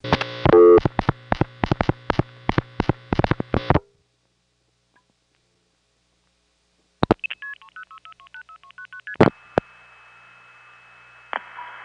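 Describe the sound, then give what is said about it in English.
Telephone dialing routed through a crossbar tandem exchange in Regina: a rapid run of touch-tone beeps, then silence, then clicks and a quick stepped series of signaling tones, ending with clunks and a steady tone. “listen for the gonging sound of the Regina crossbar tandem dialing.”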